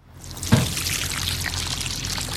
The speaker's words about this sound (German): gießt im Gewächshaus eine Reihe junger Tomatenpflanzen